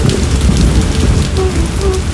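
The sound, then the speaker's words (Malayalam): Heavy rain pouring down in a dense, steady hiss that stays loud and even throughout. “നല്ല മഴ.”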